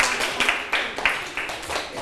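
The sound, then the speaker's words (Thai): Students in a class clapping for classmates, a handful of separate claps spaced unevenly across the moment, light and sparse rather than sustained. “เก่งมากๆเลยปรบมือให้เพื่อนๆหน่อยครับ”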